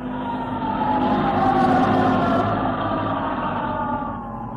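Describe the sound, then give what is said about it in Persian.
Ambulance and police car sirens: sustained, wavering wails over dense, loud noise that swells toward the middle and eases off at the end. “اون یه آمبولانسه با ماشینای پلیس.”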